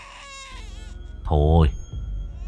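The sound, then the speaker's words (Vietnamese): A child crying at night in the mountains: a single loud, drawn-out wail that swells and fades within about half a second midway. Other voice sounds come before and after it. “nghe tiếng trẻ con khóc vang lên trong đêm giữa núi rừng thế này, tự nhiên cũng rùng mình cảm thấy trần trợn”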